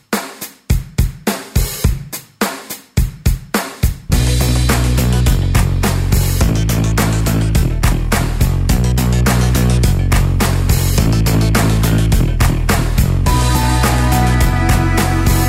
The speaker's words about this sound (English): Basically, this music right here was created by one of their musicians.